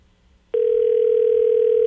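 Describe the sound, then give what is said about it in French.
Telephone ringing tone on an outgoing call: after a brief near-silence, a loud, steady single-pitched tone starts abruptly and holds unbroken to the end. “On appelle pour l'amour. Ouais. Ah, tu sais que c'est nous. Réponds.”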